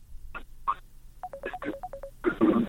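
Touch-tone keypad beeps as a listener dials in to a call-in radio health program: a rapid run of short, clipped electronic tones of varying pitch, followed by a brief burst of noise.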